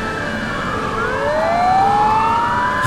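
A Turkish police car siren wails loudly and continuously, its tone sweeping upward over a constant vehicle drone.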